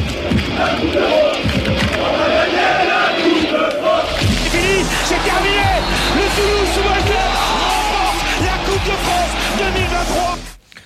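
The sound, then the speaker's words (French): A crowd shouting and yelling in a Toulouse football preview jingle: loud, continuous massed cries and whoops over a low musical bed, ending abruptly near the close. “On a mis ce jingle. Il a cru qu'on le chambrait, mais au final, non. C'est vraiment le jingle preview.”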